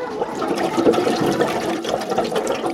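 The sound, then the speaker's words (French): Bubbling water as breath from the lungs is blown through a tube into water, pushing the water out of a bottle. A steady, continuous burbling churn runs the whole time with no pauses and no talk. “Il met sa bouche sur le tuyau. Et puis il souffle. Et quand on souffle, il y a des bulles.”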